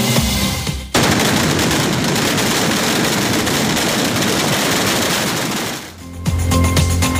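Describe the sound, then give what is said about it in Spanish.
A kilometre-long string of firecrackers explodes at the patron saint festivities in Xeraco, a dense, unbroken crackling roar that holds steady for about five seconds and then cuts off abruptly. “este es el sonido de la espectacular traca kilométrica que se lanzaba ayer en las fiestas patronales de Xeraco”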